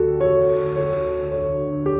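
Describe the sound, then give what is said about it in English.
Slow, deep breath drawn in through the nose during a guided breathing exercise: a soft airy hiss lasting about a second over a steady low drone. “Now I want you to take a deep breath. Fill your lungs with air and control the breathing with your stomach muscles. Breathe in”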